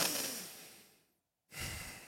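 Exaggerated heavy breathing, as a person does while lying in the dentist's chair: one long, breathy exhale fades away, then a short silence, then another strong, loud breath.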